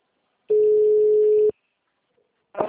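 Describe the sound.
Ringback tone on an outgoing telephone call: a single steady, low-pitched tone lasting about one second, then silence, with a brief new sound starting at the very end.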